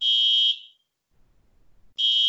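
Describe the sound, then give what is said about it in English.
A home fire alarm goes off with loud, piercing, high-pitched beeps. A half-second beep is followed by about a second and a half of near silence, then a second beep that runs to the end. “hold on, my fire alarm's going off.”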